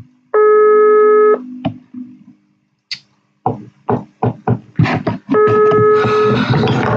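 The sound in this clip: Ringing tone of an outgoing telephone call: two steady, buzzing one-second tones separated by a few seconds of sharp knocking and tapping clatter, the second tone laid over a rough noisy background.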